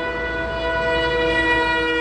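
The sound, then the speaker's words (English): A passing truck sounds its horn in one long, steady, loud blast that holds a constant pitch for the whole moment, with no voices or other sounds over it. “Daniel says the truckers that honk as they pass might be worried for their jobs like he is, but they're also showing solidarity with the Riverdale residents.”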